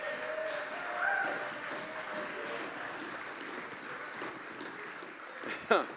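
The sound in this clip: Soft, steady applause from a Pacific Baptist church audience welcoming a visiting preacher to the pulpit, a faint continuous patter of many hands that stays level throughout, with a brief louder knock near the end.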